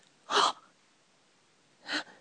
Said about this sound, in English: Surprise gasps.